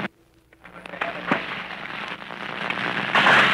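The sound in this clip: Gunfire during a Marine beach assault on a Pacific island: scattered sharp cracks and pops over a steady, noisy rush that swells louder toward the end, with no voices.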